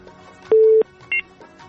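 Telephone tones as a caller's line is connected to a radio call-in show. A longer steady beep is followed by a shorter, higher pair of tones over quiet line hiss.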